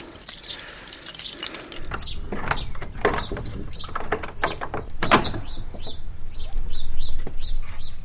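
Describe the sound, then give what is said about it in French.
An old bunch of keys jangles in irregular metallic bursts, rattling and clinking as someone tries them at a locked family mortuary chapel; a few short chirping calls repeat toward the end. “Ton vieux trousseau de clés, avant que tu changes la serrure. Il y en a peut-être une de la chapelle.”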